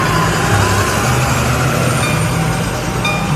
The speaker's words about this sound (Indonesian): Supir teh ngorejat gek yuk dina tukang setir. Krung krung tius beus teh nuluykeun deui perjalanan harita teh.